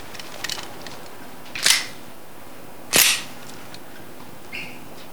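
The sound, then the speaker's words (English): Metallic clicks of a handgun being cocked outside a flat door: two sharp, bright clacks about a second apart, with faint smaller ticks around them over steady background noise and no talk. “Ray comes through a stairwell door, stops outside a flat door, and cocks his gun”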